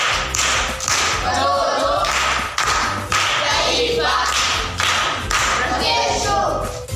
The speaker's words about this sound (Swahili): Makofi kwa mjomba.